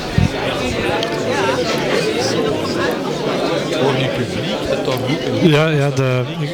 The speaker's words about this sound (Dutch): het publiek stroomt er binnen en de muzikanten staan nu op het podium, dus die gaan zo dadelijk beginnen.